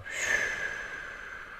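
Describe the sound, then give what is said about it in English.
A long, audible exhale pushed out through the mouth during a guided relaxation exercise, releasing squeezed-up shoulders; a single steady breath of airy noise that fades gradually. “Make some noise with the breath out. Inhale, squeeze your shoulders up high. Big exhale, let it go.”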